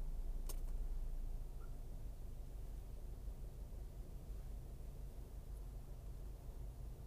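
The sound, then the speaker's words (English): A car driving along a road parallel to the 110, heard as a steady, faint low rumble of engine and road noise that stays constant throughout, with a brief tick near the start. “So I'm basically just driving parallel to the 110 right now.”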